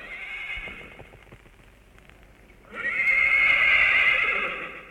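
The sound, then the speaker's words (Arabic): A horse whinnies loudly and at length in the second half, a bright, shrill, wavering neigh that follows a quieter stretch with faint tapping. “طير يا حصان طيران.”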